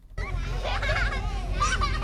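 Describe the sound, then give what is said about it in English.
Toddlers play on a grassy patch with picnic tables in a small Queensland town, their high-pitched voices chattering and squealing loudly and without pause. “As toddlers race a mini wheelie bin between a row of picnic tables, a group of mums chat over coffee.”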